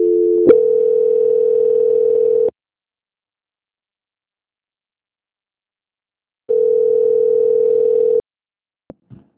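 Telephone line tone during a call transfer: two long, steady, mid-pitched tones of about two seconds each, separated by a long silence and followed by a couple of faint clicks.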